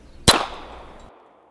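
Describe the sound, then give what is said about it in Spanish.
A single sharp gunshot, fired at a creature's heart, cracks out once and then fades in a ringing decay that trails off over about a second. “El investigador se quedó petrificado, pero acertó a disparar al sujeto directamente en el corazón.”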